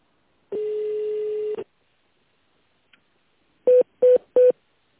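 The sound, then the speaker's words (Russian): Telephone keypad tones dial an extension number: three short, evenly spaced beeps follow a longer steady tone and a pause, each tone clear and fairly loud with no talk over it. “Если вы знаете внутренний номер сотрудника, введите его, либо дождитесь ответа оператора.”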